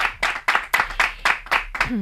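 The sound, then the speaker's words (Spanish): An audience claps in a regular rhythmic beat, about eight sharp claps evenly spaced, and a brief tone rises at the very end. “¡Un aplauso para ella!”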